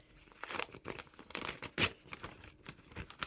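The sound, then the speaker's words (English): A paper envelope is torn open with continuous crinkling and rustling, punctuated by a sharper rip near the middle, fairly quiet and with no talk over it. “We've got two brand new envelopes with two new confessions inside.”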